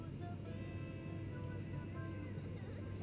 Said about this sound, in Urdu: مدرسۃ المدینہ کی ٹیم کو لیتا ہوا جہاز ہوا میں بلند ہوا